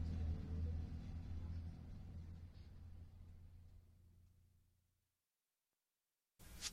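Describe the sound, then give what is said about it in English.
A bus on the way back to the visitor center gives off a low, steady engine rumble that fades gradually to silence before a short burst of noise at the very end. “This bus is headed back to the visitor center.”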